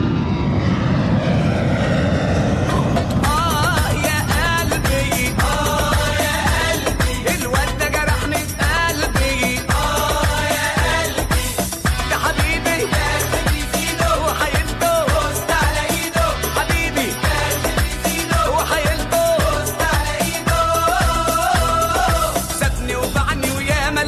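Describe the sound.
Airplane engine roaring during take-off on a flight to Damascus airport: a loud, rough, continuous drone that stays steady for about 24 seconds, with no voices.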